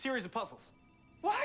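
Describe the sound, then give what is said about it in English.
A phone rings with a thin, steady electronic tone in a short gap between people talking. “Wait, everyone. I hear my phone ringing.”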